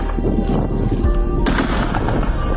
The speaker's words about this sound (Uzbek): Mo'ljalga oluvchimga komanda berdim, osmonga qarata bir necha marta o'sha ogohlantiruvchi o'q uzdi.